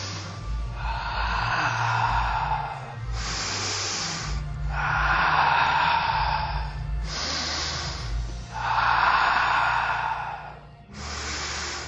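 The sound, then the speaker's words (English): Deep, audible breathing during a guided arm exercise, with inhales and exhales alternating in a steady, slow rhythm over a low, constant hum. “Deep inhale in. Exhale, down. Inhale. Exhale. Good, let's do five more.”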